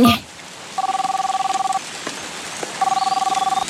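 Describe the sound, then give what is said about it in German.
Dialing tones from a space-suit radio placing a call: two runs of rapid, evenly pulsed dual-tone beeps separated by a short pause, clear and loud over a faint hissing background. “Achtung, ich mache das nochmal über meinen X-Funker hier am Raumanzuggürtel. X-Funker, bitte einmal Sternchen anrufen.”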